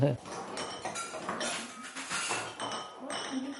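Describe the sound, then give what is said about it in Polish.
A knife cuts eggs for sour rye soup, making a run of quick, light clinks and taps against a hard surface. Voices talk over the cutting throughout. “Kroimy jajeczka do żurku”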